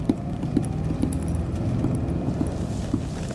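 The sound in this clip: Fingers drum nervously on a car's glove compartment, a steady series of light, evenly spaced taps over a low, constant rumble of the moving car.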